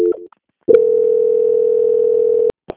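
Steady telephone tone while a call is transferred: a short tone blip, a brief pause, then one loud, even, unbroken tone lasting nearly two seconds, ending in short clicks.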